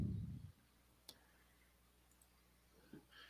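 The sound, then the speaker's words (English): A single sharp mouse click opening a viewer comment, brief and faint against near-silence, after a short low rumble at the start fades away. “I'm going to just kind of go through them sporadically. I'll look for one and let you. I'll click on this.”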